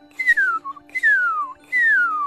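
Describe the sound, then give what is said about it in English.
A person whistles an imitation of a northern cardinal's call: three clear, loud notes, each sliding smoothly downward in pitch, with a brief lower note after the first. “One of the cheeriest notes of spring is the whistled call of the northern cardinal, and it can easily be imitated.”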